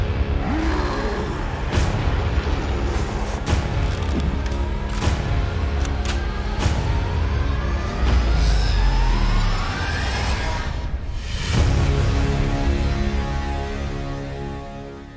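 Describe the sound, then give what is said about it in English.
Trailer audio for the 2012 film The Avengers plays as a dense, loud soundtrack of layered score, wailing siren-like sweeps and repeated heavy impacts that persist throughout. “you were just listening to the trailer for 2012's The Avengers”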